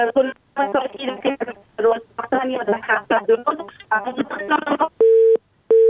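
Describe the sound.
A phone line tone sounds after a listener's call to a phone-in program drops: a man talks first, then a steady mid-pitched beep sounds twice with a short gap between.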